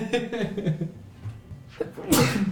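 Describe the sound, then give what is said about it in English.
A single loud, sharp sneeze from a player during a tabletop role-playing game session bursts out near the end, after a couple of seconds of soft voiced sounds. “Oh my god, you just sneezed all over me! That was disgusting!”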